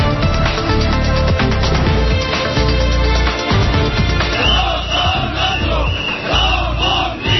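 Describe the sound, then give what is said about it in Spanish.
A crowd of about three thousand protesters at a street demonstration in Getafe, supporting eight prosecuted Airbus union members: loud massed shouting and chanting that stays dense and steady throughout. “Ese es el sonido de la manifestación que hemos podido escuchar esta mañana en Getafe.”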